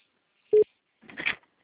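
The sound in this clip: A single short, steady telephone tone sounds on a call, followed by a brief burst of voice.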